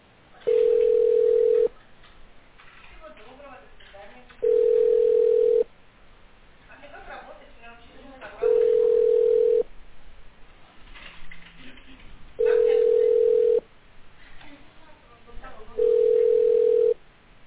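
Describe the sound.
A telephone ringback tone sounds on an unanswered call: five long, steady mid-pitched beeps repeat at regular intervals of about four seconds, with a voice talking in the gaps between them.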